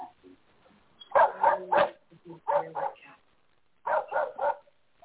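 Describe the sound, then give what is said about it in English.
Two pet dogs barking in three short bursts of quick barks, fairly faint, with quiet gaps between the bursts. “my dogs are obnoxious. One barks and the other one barks at the other one for barking.”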